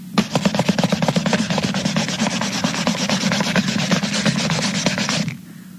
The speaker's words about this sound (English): Now I've got my new bottle in one hand and a clean rag in my other hand. I'm going to rub it until it looks new again.